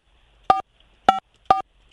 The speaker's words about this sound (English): We're going to call Dylan to find out if his voicemail is set up.